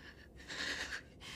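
Heavy breathing from a girl clutching a cat: faint, airy breaths, one long swelling breath in the middle followed by the start of another.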